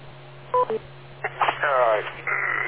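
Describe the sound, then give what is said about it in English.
Radio repeater beep: a quick pair of short electronic tones on a radio channel, followed by a voice talking over the narrowband line. “wait for the beep”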